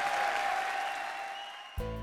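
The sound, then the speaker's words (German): Brief applause that thins and fades over under two seconds. An abrupt, loud harmonic tone cuts in at the very end. “Applaus.”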